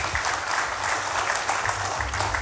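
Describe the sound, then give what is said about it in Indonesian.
Audience applause for three speakers at a morning event: steady, loud clapping from many people that runs unbroken through the whole clip. “ini tepuk tangannya harus lebih gemuruh dari yang pertama. Tepuk tangan untuk 3 orang narasumber kita pada pagi hari ini.”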